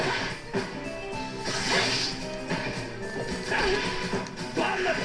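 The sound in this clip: Burn Knuckle special move striking in a fighting video game: a crunchy, smashing impact with whooshing swipes over dense, busy game sound that stays loud throughout.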